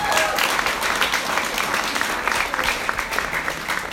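Applause from an audience at a church event with people on stage: a dense, steady wash of many hands clapping that holds at an even level through the whole clip.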